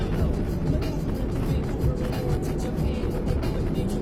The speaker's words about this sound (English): this car runs again after not running for a little bit